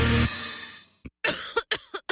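A person coughs in a quick series of short, sharp bursts with brief gaps between them, fairly loud and alone after a louder sound fades at the start.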